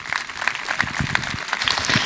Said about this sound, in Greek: είμαι βέβαιος ότι και εσείς με το χειροκρότημα που θα τους χαρίσετε θα εκφράσετε την αναγνώρισή σας.